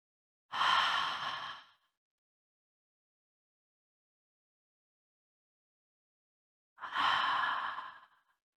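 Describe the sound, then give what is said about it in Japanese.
Deep breathing, drawing in through the nose and releasing out through the mouth: two long, breathy exhales, each lasting over a second, separated by a stretch of silence. “まずは2、3回深呼吸を行います。鼻から吸って、口からはーっと息を吐いていきます。”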